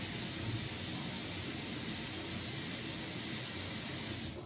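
Cold water runs from a tap into a sink for a cat, a steady, even hiss that holds at one level for about four seconds and then cuts off.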